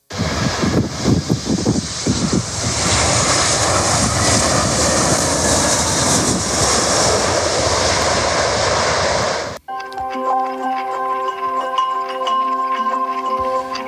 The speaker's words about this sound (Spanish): Tras pasar varias horas en Reykjavik, este mediodía cogíamos por fin el avión y aquí estamos.